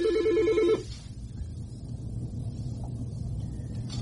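A telephone ringing for an incoming call: a short burst of warbling, mid-pitched ringtone pulses lasting under a second, followed by a low steady hiss.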